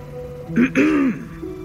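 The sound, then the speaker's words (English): Someone clears their throat once: a short, voiced, gravelly rasp in two quick pushes, the second one longer, over a faint steady background hum. “A throat cleared.”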